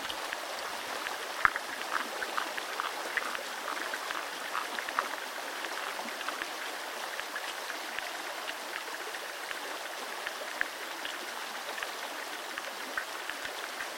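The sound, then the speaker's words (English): Chirrups and clicks from underwater beetles of various species form a continuous fizzing bed of many tiny ticks, with a few sharper clicks standing out now and then. “There are also many different chirrups and clicks that are made by underwater beetles of various species.”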